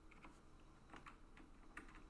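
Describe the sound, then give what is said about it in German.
Faint clicks of computer keyboard keys, including the Shift key pressed to sneak in a video game with zombies; a few light, irregular taps over a quiet background hiss. “Wenn man noch die Shift-Taste drückt. Ich zeige euch das mal.”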